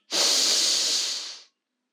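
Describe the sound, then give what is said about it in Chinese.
A deep inhalation during a guided children's meditation: one steady, airy hiss of about a second and a half that stops abruptly into silence. “对，就是这样。我们再来一次，深深的吸气。”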